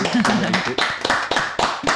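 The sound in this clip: A few people clap in a radio studio after a live song performance, sharp strikes in a regular rhythm, with a voice briefly underneath near the start.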